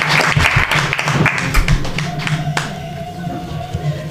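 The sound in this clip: Studio audience applauding at the start of a talk show about mental health. Dense, brisk clapping thins out and fades after about two seconds, leaving a quieter tail.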